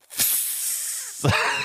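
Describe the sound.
A voice imitates air hissing out of a freshly opened can of fermented fish: a long, bright, breathy hiss lasting about a second, then a second, rougher hiss with a throaty edge.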